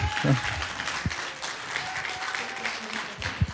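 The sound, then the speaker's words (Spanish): Audience applause for a fellow performer at the end of a concert: steady, dense clapping that lasts the whole clip, with some voices mixed in. “igual quisiera que le brindaran un aplauso a mi compañera María Elena”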